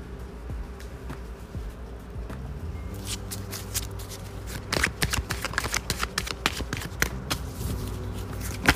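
An animal oracle card deck being shuffled: a soft low rumble, then a rapid run of crisp flicking and riffling clicks that grows louder toward the end, with no talk.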